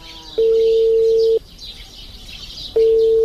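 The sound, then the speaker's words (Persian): Ringback tone of a phone call that goes unanswered: two long, steady mid-pitched tones separated by a pause, the second cut off at the end, over faint background hiss. “زنگ تیر میکنه خود جواب نمیته.”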